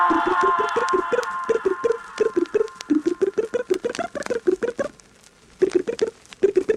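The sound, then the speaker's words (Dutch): Voice mimicking a plucked string instrument, firing off rapid staccato plucking syllables in brisk rhythmic runs, briefly falling quiet, then resuming the same quick twanging pattern. “De tokkelaar klinkt zo.”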